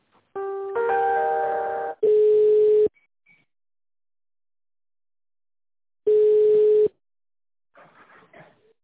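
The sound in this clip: Telephone line tones sound while an office call is transferred: a long harmonic-rich beep is followed by two shorter steady tones, each separated by silence, and a faint rustle comes at the end.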